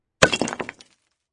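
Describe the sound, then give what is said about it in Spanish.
A round object filled with emeralds smashes hard against a rock wall: a single sharp crash with glassy, clinking shatter that dies away within about half a second. “Los tres peces llenan el objeto redondo de esmeraldas. Rosado Roco introduce su pico y con gran fuerza lo lanza al muro.”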